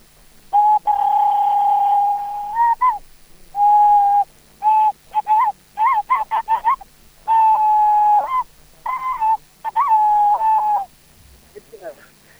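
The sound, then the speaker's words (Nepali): A bird call is imitated by playing with the hands: clear, hollow, hooting whistles in many phrases, some held long and steady and others short and clipped, with small pitch bends at their ends and brief gaps between them. “आज एउटा चराको आवाज सुनाउ भन्ने। आहा लौ न, कुन चरा होला? यो हलेसी चरा। हजुर हलेसी, हाम्रोतिर एकदम हलेसी पाइन्छ। हजुर आहा हलेसी चरा होइन, हातले बजाएर मैले सुनाउँछु भनेर।”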